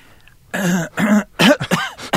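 A man clears his throat in a series of loud, rasping bursts that grow choppier toward the end, with no talking.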